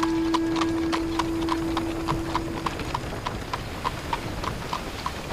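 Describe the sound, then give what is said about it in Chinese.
Steady clip-clop of horse hooves pulling a cart at night: a fast, even train of many crisp knocks over a continuous rumbling, noisy bed, with a low hum fading out midway. “车上的火把只能照亮周围一小块地方，马蹄声很响，像要把星星震下来。”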